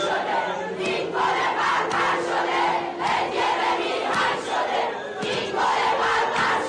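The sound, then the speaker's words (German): Angry protest crowd chanting at a funeral in Iran, women among the mourners, a loud mass of voices rising in rhythmic, repeated shouted chants that swell and fall in steady waves with no pause. “Und so klingt der Protest auf ihrer Trauerfeier.”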